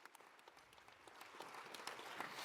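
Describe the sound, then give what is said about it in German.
Faint audience applause at a large congress honouring its volunteer helpers: many quick overlapping claps form a soft continuous patter that swells slightly toward the end. “Ein Applaus an all die Engel, die diesen Kongress ermöglichen.”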